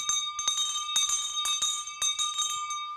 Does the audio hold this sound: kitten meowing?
no